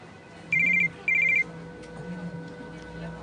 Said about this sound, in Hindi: जब मेरे फोन की घंटी बजी